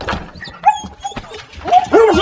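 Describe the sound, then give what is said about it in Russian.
A dog whimpers and yelps as it is kicked away: a few short, high, wavering whines and yips over scuffling noise, the loudest whine near the end. “Встречает собака, человек в шляпе отпинывает ее.”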